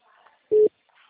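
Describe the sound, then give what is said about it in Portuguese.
Telephone ringing tone on an outgoing call: one short, clean, mid-pitched electronic beep. It sounds alone and fairly loud between faint stretches of background noise. “Agora tocou.”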